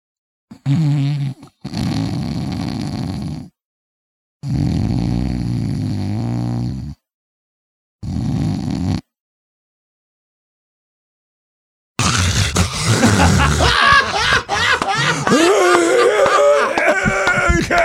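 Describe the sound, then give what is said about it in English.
A voice imitates sleep apnea snoring and breathing, making a few long, harsh, rasping snore sounds separated by silent gaps, as if breathing stops between them. After a longer silence, louder and busier sound follows. “So if you have someone that makes this sound that I'm going to do for you right now, you have somebody probably with sleep apnea”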